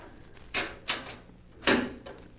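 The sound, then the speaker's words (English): A safe hidden behind a screen is opened with three sharp, separate clacks and thumps of its door and mechanism, fairly quiet and alone. “Wait till I move this screen. There. What? There's a safe behind it. Yes. Now watch. I shall open it and you shall see.”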